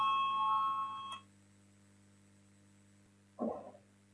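A bell rings before a vote in the Latvian parliament: a steady electronic ringing tone lasting about a second, then stopping abruptly and leaving a low hum, followed by a short muffled sound near the end.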